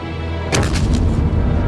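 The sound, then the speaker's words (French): Cannon shell blast during a 1941 desert siege: a single sudden heavy boom breaks a low rumble, then a loud, rolling roar decays slowly. “Ils ont un canon, capitano. Ils ont un canon? Ils ont un canon? Wow! L'obus est tombé sur le vestiaire. Il a tout détruit.”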